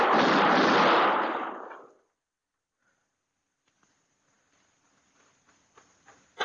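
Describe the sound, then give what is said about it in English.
A gunshot rings out in an alley as one loud, broad blast that dies away over about two seconds. Near-silence follows, broken by faint scattered taps. “I seen his gun flash.”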